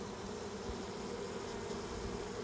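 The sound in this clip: A colony of Russian honeybees buzzes at the hive, a steady, dense drone of many wings that holds at an even level without pauses.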